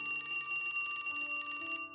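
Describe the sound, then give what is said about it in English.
A telephone rings in a foyer, its ring coming from a phone with a beige plastic handset. It gives one sustained, bright bell-like trill lasting nearly two seconds, then fades out, quiet and alone. “The phone rang again. Neither of us moved. Neither of us could move. It felt like an eternity before the next ring echoed through the foyer.”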